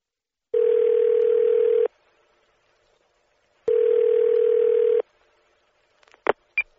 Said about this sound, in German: Sie möchten ins Kino gehen und rufen die Kinoauskunft an.